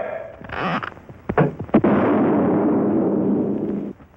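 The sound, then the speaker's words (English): A puffing gun shoots Quaker puffed wheat and puffed rice: a few sharp bangs, then a loud, steady roaring hiss that runs for about two seconds before cutting off abruptly. “Quaker puffed wheat and Quaker puffed rice are shot from guns. We'd like to show you this process.”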